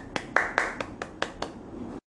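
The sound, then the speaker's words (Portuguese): Applause from a small group: about seven sharp, scattered hand claps at an uneven rhythm, fairly faint, ending abruptly in silence. “E ao final desse pequenino discurso, todos o aplaudiram.”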